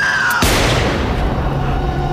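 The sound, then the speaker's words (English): A single loud gunshot rings out in an audio drama. The sudden blast cuts off a quiet tone and leaves a long, roaring decay. “Holy shit! The bitch shot me in the leg!”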